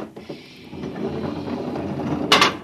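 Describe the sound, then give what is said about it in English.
An airlock door in radioactive tunnels opens with a low mechanical rumble that builds steadily. It ends in a short, bright hissing burst. “I have a pass from the Director of Emotional Stability for the Third Oblong. Special mission. I'll open the airlock.”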